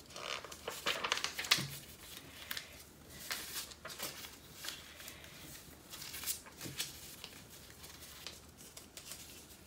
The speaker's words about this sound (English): Now I'm just going to continue doing an accordion fold all the way.